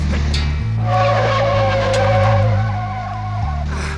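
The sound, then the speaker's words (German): Tyres squeal as a Volvo skids during an emergency stop under full braking. A loud, sustained screech rides over a deep engine rumble for the whole stretch, with no voices. “Der Volvo gerät ins Schleudern. Ah. Er macht eine Vollbremsung.”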